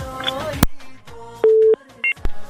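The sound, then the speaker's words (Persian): Telephone line signals sound as a radio studio connects a listener's call: a sharp click, a steady mid-pitched tone, a brief higher dual-pitched beep, then another click. “بله تماس قطع میکنیم، میریم یک تماس بعدی را وصل میزنیم به خاطر از اینکه اصلا صدایشان درست نبود”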